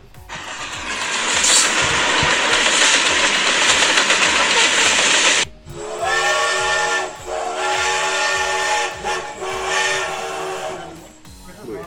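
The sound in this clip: Steam train whistle: several seconds of loud rushing steam hiss, then a strong, steady whistle blast with rich harmonics that briefly dips midway and cuts off near the end.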